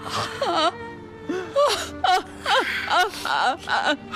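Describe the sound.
A mother wails and sobs in grief over her son's lung cancer diagnosis. Several wavering, rising-and-falling cries come in bursts, broken by short gasping breaths.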